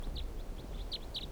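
Bird calling: a run of short, high-pitched chirps repeated in quick succession over a low, steady rumble, with no talk.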